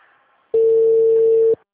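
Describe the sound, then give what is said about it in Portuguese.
After a dropped phone call, one steady, mid-pitched telephone tone sounds for about a second, following faint line noise and ending abruptly. “a ligação caiu e abriu o sistema”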